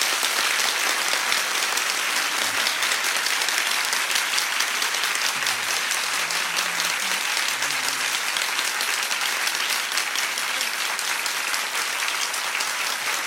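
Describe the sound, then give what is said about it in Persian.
Sustained crowd applause with many hands clapping together, a steady, dense patter that stays loud and even throughout, with no talk over it. “حسین دست تو بیار بالا، یه کف خوشگلم بزن.”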